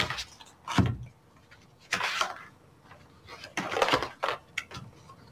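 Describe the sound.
Shuffling and drawing a deck of fortune-telling cards: a few short, papery rustling bursts separated by quiet gaps, without talk.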